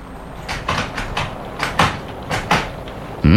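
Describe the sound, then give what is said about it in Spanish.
A broken door lock being tried, its latch rattling and clacking in many sharp, uneven knocks that come in quick clusters. “¿La cerradura está rota? Sí, señor. Mira, no funciona.”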